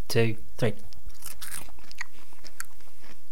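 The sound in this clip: Crunching and chewing on a fried, salty insect eaten as a bar snack, complete with eyes and wings. Short voiced sounds come first, then a few scattered crisp crunches.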